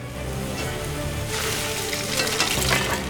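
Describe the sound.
A fish fries in a pan over open flames, giving a steady, crackling sizzle that swells a little louder toward the end.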